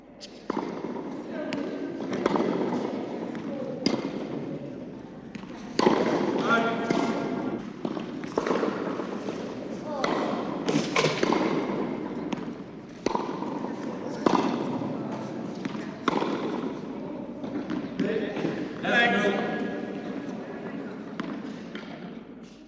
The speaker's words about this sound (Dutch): En dit is een tenniswedstrijd.